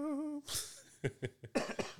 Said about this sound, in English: Yeah, I coughed on the mic.